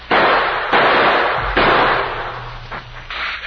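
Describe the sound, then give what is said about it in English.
Rifle shots fired from among boulders across a canyon: three loud, sharp cracks, each with a long, rumbling tail, then a couple of fainter shots. “They're apparently hidden among those boulders across the gorge, using rifles.”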